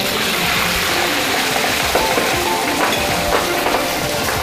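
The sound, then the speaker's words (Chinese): Hot oil sizzles steadily around a duck brushed with soy sauce and deep-fried until golden, a dense hiss with scattered small crackles and pops throughout. “焯水后捞出，在鸭身上抹上酱油，放入油锅中炸至金黄色，”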